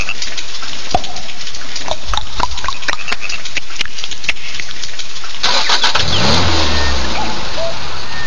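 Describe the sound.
A Škoda Octavia car engine is started: the starter cranks in a long run of rapid, rhythmic pulses, then the engine catches and settles into a louder, steady running roar with a low rumble.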